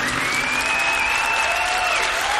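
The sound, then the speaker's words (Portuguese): Applause for Our Lady at a religious gathering, a steady, dense crowd clapping that stays loud and even from start to finish. “Uma salva de palmas a Nossa Senhora!”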